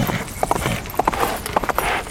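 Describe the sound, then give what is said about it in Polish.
Horse hooves of a courier urging his mount on, a quick, uneven run of many sharp clip-clop hoofbeats at moderate loudness. “Goniec popędził konia. Czas naglił.”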